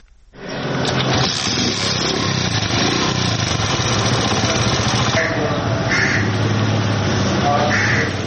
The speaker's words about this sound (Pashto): د موټرسایکل پر غږ پیلېږي